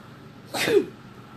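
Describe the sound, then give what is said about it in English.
A single loud, bursting sneeze from a man, short and breathy, standing out alone against quiet low background noise. “Excuse me, my goodness. If they are, wow. Nobody here to bless me, excuse me.”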